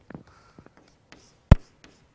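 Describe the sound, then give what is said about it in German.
A marker writing on a board during a lesson on colour systems: a few faint scratchy strokes and soft taps separated by quiet gaps, with one sharper, louder knock midway. “Lab. Ja. XYZ. Schreibe ich mal da oben hin.”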